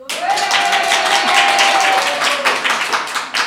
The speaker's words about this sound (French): Un public en folie.